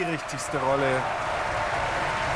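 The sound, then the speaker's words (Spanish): An opera audience gives an ovation: even, steady applause continues to the end, with a voice heard briefly at the start. “Está entusiasmado el público, ¿eh? A diferencia entre esa acogida inicial del público ante el aspecto escénico y la ovación ante el aspecto musical.”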